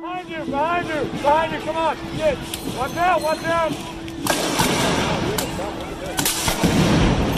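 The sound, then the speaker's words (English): Flashbang grenades are fired by federal officers at protesters at a night demonstration in Portland, Oregon. Loud blasts burst out over shouting voices, followed by a sustained rush of noise. “Federal law enforcement officers again fired flashbang grenades and tear gas at protesters in Portland, Oregon last night.”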